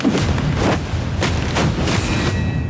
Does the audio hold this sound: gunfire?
yes